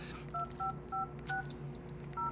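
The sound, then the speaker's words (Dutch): A telephone is dialed before a call: five short dual-tone keypad beeps at an uneven pace, each a clean electronic tone over a steady low hum, with no voices. “Ik ga even bellen.”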